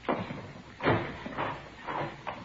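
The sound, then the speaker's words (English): A door is opened, producing a few soft, evenly spaced knocking clunks that sound faint and dull, with no voices. “Here, I'll get the door.”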